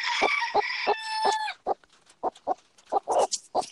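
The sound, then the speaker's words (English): A rooster crows once, a long ringing harmonic call, then chickens cluck in a quick, irregular run of short sharp bursts. “Sorry about the chickens.”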